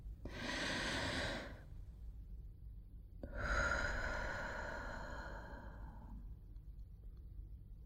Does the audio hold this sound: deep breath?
yes